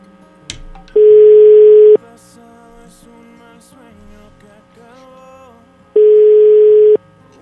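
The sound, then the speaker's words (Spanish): Telephone ringing tones sound while a call is being dialed: two long, steady, loud tone bursts separated by a stretch of quieter background sound. “Vamos, estamos marcando. Ya está.”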